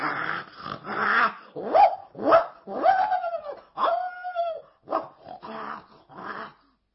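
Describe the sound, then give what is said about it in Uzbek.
Dogs bark, yelp and growl at a bear, a rapid run of sharp, strained cries and snarls that overlap one another and keep going for the whole stretch. “Qo'shini hovlilardagi itlar ham vovullab”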